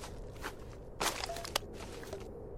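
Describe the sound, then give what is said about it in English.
Soft footsteps heard in stereo: a few faint, slightly crunchy steps over a steady background hiss, with one sharper click near the middle and no talk. “And I don't know why the footsteps are in stereo.”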